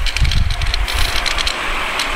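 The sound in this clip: Cars at a street crossing start up and drive off, making a loud, steady rumble of engines and road noise with low throbbing and a broad hiss, and no voices.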